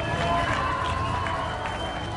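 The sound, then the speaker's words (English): Audience applause and cheering welcome Pro Football Hall of Famer Julius Peppers onto Packers Live, a steady, dense wash of clapping and crowd noise lasting throughout. “Ladies and gentlemen, please give a warm Packers Live welcome to Julius Peppers.”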